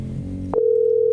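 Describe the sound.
Telephone ringing tone on a call that goes unanswered, a steady, clear mid-pitched tone that starts abruptly after a brief low hum and holds unbroken to the end.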